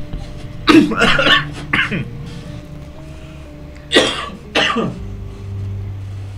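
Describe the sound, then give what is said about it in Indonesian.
Throat clearing in the early hours of the night, a few harsh, raspy bursts: a cluster of rough rasps early on, then two more sharp ones a few seconds later, each fairly loud against near silence. “Ada yang menggaruk tenggorokan.”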